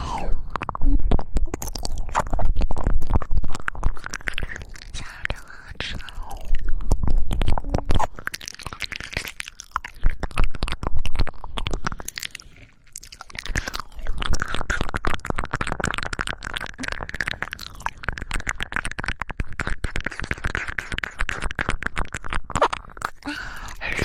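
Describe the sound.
Crunchy "little ears" snack being chewed, with a loud, dense, continuous crackle of many crisp bites and grinding crunches that pauses briefly partway through, then carries on.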